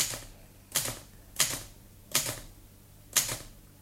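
A typewriter struck slowly by someone just learning to use it, four sharp separate clacks at uneven intervals with quiet pauses between them.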